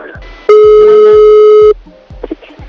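A telephone call being placed: one loud, steady electronic line tone holds for just over a second and then stops, followed by a few faint low clicks.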